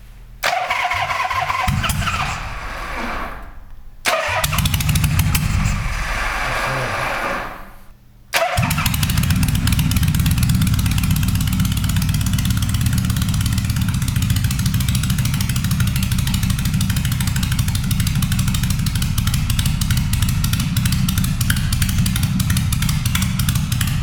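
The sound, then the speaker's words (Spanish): A Harley-Davidson motorcycle's electric starter motor cranks in two loud bursts before the engine catches. It then settles into a loud, steady, throbbing idle that runs on alone. “Es un sonido militar, realmente. Pero es el típico sonido de cualquier Harley.”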